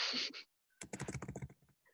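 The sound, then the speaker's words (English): Typing on a computer keyboard: a short burst of clicks, a brief pause, then a longer run of many quick, crisp keystrokes. “Let me type it in.”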